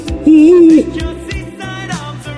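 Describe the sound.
An owl hoot rings out as one loud, wavering tone lasting about half a second, followed by fainter tonal sounds and soft clicks.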